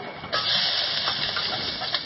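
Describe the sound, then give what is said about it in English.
Chicken sizzles in a hot wok for a chili-and-garlic stir fry: after a short quiet start, a loud, steady, hissing sizzle rises and holds without a break to the end. “I'm just going to put my chicken in.”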